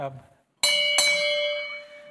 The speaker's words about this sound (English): I've put the bell up on the front. Bells, I was thinking, well, I'm going to ring it, so you have to get used to this.